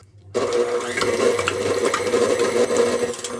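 An electric mixer beats cream cheese in a bowl, kicking in abruptly after a brief silence and holding a steady, buzzing motor whir with a faint rattle of beaters throughout.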